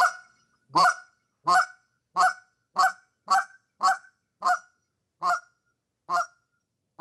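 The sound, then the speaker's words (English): A goose call imitates the cluck of aggressive geese with a series of loud, sharp honking clucks. About ten clucks come at a steady pace, then space out slightly toward the end, each sounding alone with silence between. “a cluck is a single goose, double cluck is two geese. Geese are very aggressive. So you can always go slow, you can go fast, but it's just going to sound like this right here. So a cluck is.”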